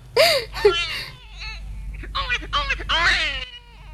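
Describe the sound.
An infant cries in several rising and falling wails separated by short breaths, loud against a low steady hum.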